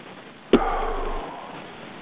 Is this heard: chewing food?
no